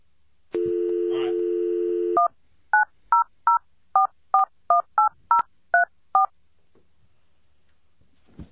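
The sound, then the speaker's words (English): A steady dial tone sounds on a telephone in 1989, then eleven touch-tone beeps follow in a brisk, even sequence as a hotline number is dialed, each tone short and clear. “you have the number over there, don't you? Yeah. You want to come over here and dial it?”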